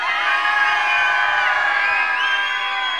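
Whistles and screams from a packed crowd at the Inferno dance hall blend into a sustained, piercing wall of high shrill tones and cheering that holds steady at full volume for a few seconds.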